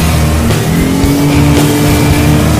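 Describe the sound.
A car engine roars loudly and steadily as the car is driven and accelerates. The dense engine noise stays constant throughout, with no voices.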